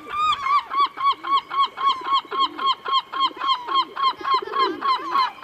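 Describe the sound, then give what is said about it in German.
A black-headed gull calls in a rapid, regular series of harsh, nasal, honking cries. Each call is short and loud, and they repeat evenly without other sounds. “Auch der Seevogel des Jahres ist gekürt. Dieser Titel geht an die Lachmöwe. Und so klingt sie.”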